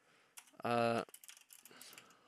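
Typing notes on a computer keyboard: a quick, uneven run of many light key clicks, fairly faint.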